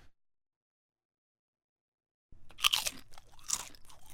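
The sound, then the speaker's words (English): Crisp crunching and chewing of a potato chip, starting abruptly after about two seconds of silence, with a few sharp crackling bites followed by wetter chewing. “I'm sorry to be rude. I'm sorry. Eating a potato chip.”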